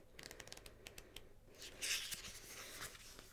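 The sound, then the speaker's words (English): Pages of an oracle-card guidebook are flipped through: soft, crisp paper rustles and flutters with a few sharper brushing strokes, quiet and alone. “So I'm just going to turn to the guidebook and find the description so that I can read it to you.”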